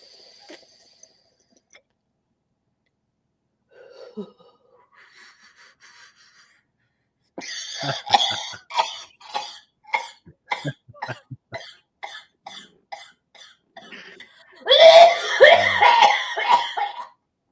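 Harsh, repeated coughing after a big dab hit comes in many short, rough bursts, then builds to a heavier, louder fit near the end.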